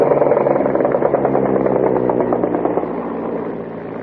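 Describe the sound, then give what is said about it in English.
Engine of a World War I SPAD 13 fighter aircraft running: a loud, rough, buzzing drone rich in harmonics, holding steady before easing slightly toward the end. “That is the sound of an actual SPAD, a World War I SPAD 13. Which was a World War I fighter.”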